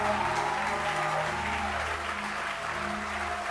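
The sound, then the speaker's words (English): An audience claps hands during a church service, a dense, continuous patter of applause holding at an even level throughout. “I want you to clap your hands.”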